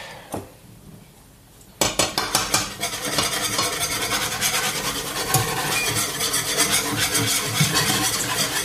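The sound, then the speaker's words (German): Flour being stirred into sauce in a pot while making Königsberger Klopse. After a quiet start, a utensil scrapes and rubs steadily against the pot with small clinks. The sound is continuous and rhythmic, with no talking. “So, und immer schön rühren, damit das nicht klumpt nachher.”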